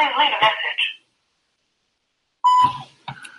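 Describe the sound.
A voicemail system's short, steady mid-pitched beep comes after a recorded greeting voice and a stretch of silence, with more voice following.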